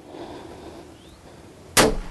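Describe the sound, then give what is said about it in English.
A single gunshot is fired at a deer during a hunt. It is a sudden, loud crack near the end, after quiet outdoor ambience, and it decays quickly. “The deer runs about 50 feet before collapsing. The shot is clean and fatal, just behind the front leg.”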